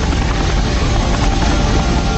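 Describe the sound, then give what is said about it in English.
Helicopters fly low on a long flight from an aircraft carrier: a loud, dense, continuous roar of engine and rotor noise with a heavy low rumble, unbroken throughout and without voices. “From an aircraft carrier in the Arabian Sea, the helicopters flew more than 500 miles into Iran.”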